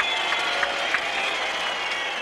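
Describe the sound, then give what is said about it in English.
Spectators react at the 1984 French Open men's final in tennis, a steady wash of crowd noise with murmuring and scattered clapping that holds at an even level throughout, with a few sharper peaks. “And the crowd reacts.”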